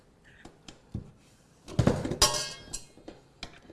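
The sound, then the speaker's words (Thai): Metallic clinks and clatter as a beater is fitted onto a mixer: a few sharp, separate knocks, then a louder, denser burst of rattling, then a few more scattered taps. “หลังจากที่เราร่อนแป้งได้แล้วนะเดี๋ยวเราจะมาใส่เครื่องตีของเราค่ะเวลาใส่เครื่องตีนะ”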